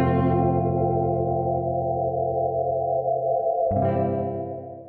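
Electric guitar drenched in echo and effects, transforming a plain demo-style part. A thick sustained chord shimmers and hangs, a fresh strum swells in near the end, then the washed-out tone fades away.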